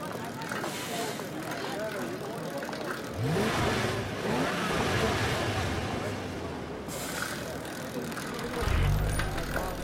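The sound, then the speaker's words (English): A bicycle ridden along a road with BMW cars following: a steady rolling wash with engine tones climbing briefly midway, and a low engine rumble swelling near the end. “Josh hops on his bike and starts to ride. The BMWs follow.”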